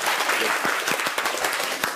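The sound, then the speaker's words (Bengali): Audience clapping for a student at a school gathering: a dense, steady patter of many hands with no gaps, fairly loud throughout. “ওর জন্য জিমেশের জন্য একটা হাত তালি দাও”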